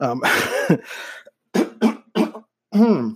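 A man coughs and clears his throat in a few rough bursts separated by short silences, starting with a longer throaty hack and followed by shorter coughs.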